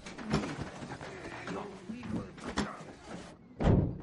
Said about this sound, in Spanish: cierra el maletero